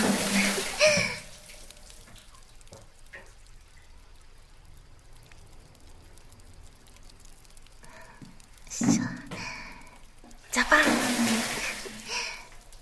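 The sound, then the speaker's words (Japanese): Water is poured over someone being washed in a bath, arriving as a few gushing, splashing bursts with a quieter stretch between them, and a voice speaks around the pours. “じゃあまずは体洗おっか。 はい、じっとしててね。はい、ジャパーン。”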